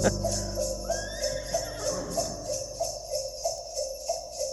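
A horse whinny opens a Christmas pop song, rising briefly early on over a steady, pulsing musical backing with a bright jingling sleigh-bell rhythm.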